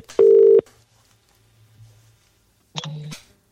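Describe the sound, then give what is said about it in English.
Telephone keypad tones as a number is dialled: two short, steady electronic beeps separated by a gap with a faint low hum, the second tone lower and more layered than the first. “would you like to dial a number up for us?”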